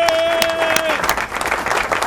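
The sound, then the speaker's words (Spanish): A studio audience applauds a returning guest, with sharp, distinct claps coming through; a voice is heard at the start, and the clapping turns denser and more scattered toward the end. “Y tenemos hoy de nuevo de vuelta junto a nosotros a Gilberto Reyes. Un aplauso para Gilbertico ahí.”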